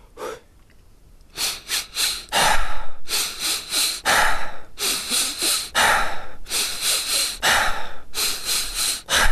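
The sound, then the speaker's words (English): Rhythmic breathing exercise: quick, sharp sniffs in through the nose, each short run followed by a relaxed exhale through the mouth, repeated in a steady, fast cycle, loud and alone. “three inhales through the nose, followed by a relaxed sigh out through the mouth. So it goes like this.”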